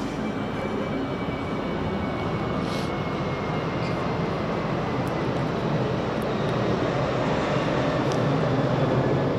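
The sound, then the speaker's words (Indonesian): Heavy, steady roar of an airplane circling overhead while queueing to land at a small airport in Yogyakarta; a broad, constant drone holds at even loudness throughout, with no voices. “ya kayak pesawat ini bolak-balik lewat kan gimana lagi?”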